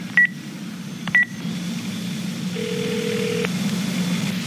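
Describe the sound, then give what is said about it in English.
A phone dialing a number to call back: two short, high keypad beeps about a second apart, then a lower, steady tone held for roughly a second, all over a constant low background hiss. “Let me call the number back just to be sure if it's really who I think it is.”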